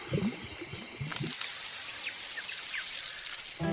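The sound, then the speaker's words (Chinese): Water spraying from a cartoon fire truck's hose onto sunflowers, a steady hiss that bursts in abruptly after about a second and continues with dripping textures. “要给向日葵浇水，你得说 water。 你能说 water 吗？ 说 water。”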